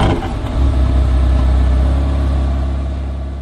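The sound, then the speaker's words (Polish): Porsche car engine revving: a loud, dense, sustained roar with a deep rumbling low end, holding steady before easing off slightly at the end. “No to Porsche nas pozdrowiło. Właśnie tak, ładny dźwięk.”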